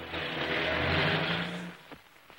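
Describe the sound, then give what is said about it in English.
A car pulls away, its engine and road noise forming a steady rumble that fades out after about a second and a half, leaving near silence. “He drives on.”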